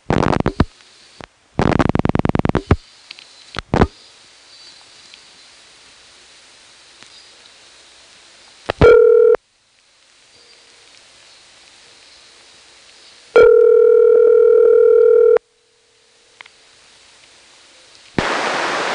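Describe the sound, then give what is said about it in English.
Telephone trunk sounds as a vacant code is dialed into an ESS switch: short bursts of noise and clicks, then two steady buzzing tones separated by quiet line hiss, and a final burst of noise. “It's another trunk to the ESS. I might as well dial a vacant code into the thing. It'll just be a local recording.”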